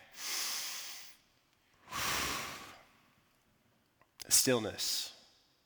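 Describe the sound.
Slow, deep breathing: two long, soft breaths drawn in and let out, followed by a shorter, sharper breathy sound carrying a brief voiced tone.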